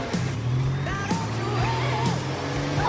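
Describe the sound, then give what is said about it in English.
Car engine as a car pulls off and drives up to a junction leading onto a main road, a continuous rumbling note with shifting tones throughout. “They pull off and drive up to the junction that leads back onto the main road.”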